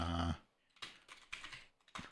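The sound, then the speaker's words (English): Typing on a computer keyboard: soft, irregular key clicks in a few quick bursts, after a brief tonal sound at the start. “I'm literally typing that.”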